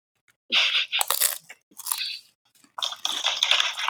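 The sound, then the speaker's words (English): Loud, crisp crunching as someone chomps on thick Casa Sanchez snack chips, heard in three separate bursts of brittle cracking bites with short quiet gaps between them. “I'm going thin, but man, I think I prefer the thick. I'm chomping on some thick boys right now, or as our friends at Casa Sanchez call them, gruesos.”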